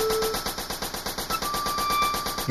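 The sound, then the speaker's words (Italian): Machine-gun fire: a continuous stream of rapid, evenly spaced bursts that stays loud throughout, with faint steady tones running beneath it. “Questo qui è una mitragliatrice.”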